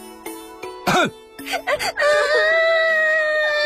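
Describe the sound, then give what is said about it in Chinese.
Several children cry loudly. High, strained voices wail and break into short sobs, then settle into a sustained, unbroken cry. “别哭了，你们这些小贼。”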